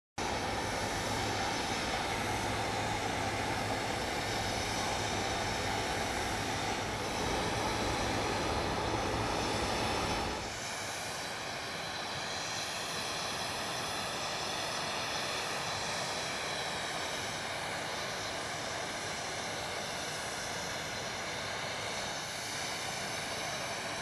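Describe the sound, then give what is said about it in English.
Loud, steady aircraft engine roar with a high whine as the U.S. presidential plane lands in Ottawa; the low rumble drops away about halfway through, leaving a sustained whining hum alone, with no talk. “Joe Biden is now on Canadian soil, landing earlier this evening in Ottawa, and this was the scene.”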